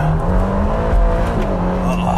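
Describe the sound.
A Ferrari Roma, a front-engined car, runs with a loud, steady engine drone that holds an even low pitch throughout.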